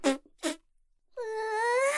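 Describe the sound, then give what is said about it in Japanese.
Flatulence: two short, soft buzzing puffs, then after a brief pause a longer, drawn-out tonal fart whose pitch wavers and creeps upward, all fairly faint. “私のお尻の穴から奏でられるおなら、あなたにいつまでも嗅いでほしいの。”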